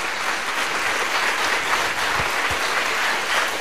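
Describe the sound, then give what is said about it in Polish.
Studio audience applause welcoming a band for a live studio concert: dense, steady clapping that stays even and continuous throughout. “Prosimy bardzo, brawa.”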